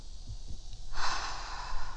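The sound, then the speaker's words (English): A deep breath drawn in as a long, airy inhale that rushes in abruptly after a quiet start and holds steady to the end, with no talking. “So, it's okay. Take a deep breath.”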